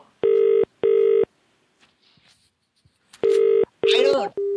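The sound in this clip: Telephone keypad dialing tones sound as four steady electronic beeps in two pairs separated by a pause. A voice speaks over the later tones.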